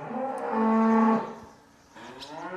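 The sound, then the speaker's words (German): A deep, drawn-out moo from Angus cattle in a barn stall, swelling in loudness and then fading, with another lower call starting up as the first dies away. “Zurück auf Äsch, in Stall mit den Angusrindern von Thomas Buchli.”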